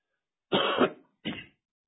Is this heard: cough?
yes